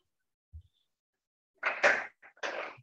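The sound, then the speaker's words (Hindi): A door is opened with a faint low thud, followed by a few louder rattling, clattering bursts close together. “Sorry एक second का time देंगे, मैं door open करनी जी”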